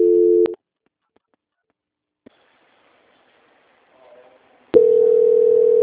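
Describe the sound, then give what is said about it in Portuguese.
Telephone line tones during a call transfer: a steady tone stops after half a second, a near-silent gap follows with a single faint click, then the steady tone returns loudly and holds to the end. “Espera um pouquinho, mãe, que eu tô passando uma ligação aqui pra auditoria.”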